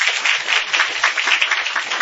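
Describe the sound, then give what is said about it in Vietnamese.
Audience applause after a Buddhist dharma talk, dense continuous clapping with an even rattling texture throughout, fairly loud and alone. “thấy chúng ta tán thán cho cổ một tràng pháo tay nữa”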